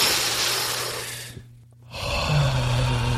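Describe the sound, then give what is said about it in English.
A deep, airy breath comes as a loud rush of breath noise, fades into a brief near-silent pause, then returns as another full breathy surge. “Let me take a deep breath here for 1 second. Everybody take a deep breath.”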